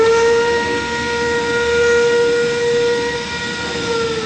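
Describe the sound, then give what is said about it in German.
A steam locomotive standing ready to depart lets out a loud, sustained steam whistle over a continuous hissing wash. The steady tone holds without breaks. “Ist die Dampflok fahrbereit, zischt und faucht sie an allen Ecken und Enden. Wie ein schnaufendes Ungetüm.”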